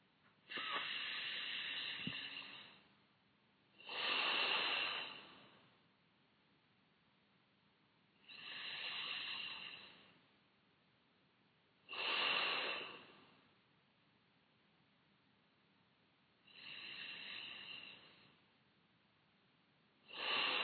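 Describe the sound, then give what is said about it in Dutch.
Deep breathing in and out during a relaxation exercise: slow, airy breaths alternating between inhale and exhale, making three full cycles. The final breath is cut off. Quiet pauses separate each breath. “En dan gaan we nu deze oefening besluiten door 3 keer diep in en uit te ademen.”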